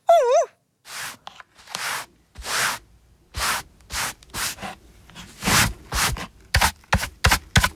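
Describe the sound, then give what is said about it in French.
A broom sweeps a floor in a tidy room: many brushy, scraping strokes in an uneven rhythm that come quicker and shorter toward the end. “Ouf ! C'est fini, tout est rangé. Il ne reste plus qu'à balayer.”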